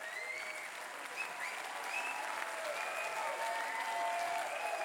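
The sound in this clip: Sustained crowd applause and cheering for a band bowing after its final encore at a festival in the courtyard of the Winzer Krems winery. Dense, even clapping runs throughout, with a few thin whistles rising above it.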